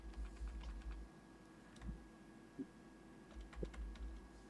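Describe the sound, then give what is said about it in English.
Faint typing on a computer keyboard: scattered clusters of light clicks over a low steady hum, grouped mostly at the start and the end. “you want to type those in there?”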